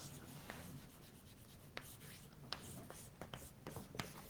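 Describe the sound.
Writing on a board during a lecture: a few short, scratchy strokes and taps at irregular intervals over a low, steady background hum.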